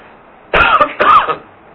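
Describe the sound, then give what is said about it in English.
Two loud, harsh coughs in quick succession break a near-silent background, each a short rough burst, the second slightly longer than the first. “Excuse me, I'm going to cough a few times in this presentation.”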